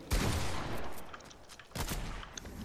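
Gunfire from a sniper in a shooter video game: a few sharp, loud shots burst over a steady wash of noise, with a heavy blast near the end.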